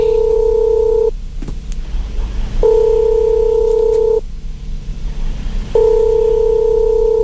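A telephone ringing tone sounds while a listener is being called: three long, steady electronic beeps separated by short gaps, over a low background hiss.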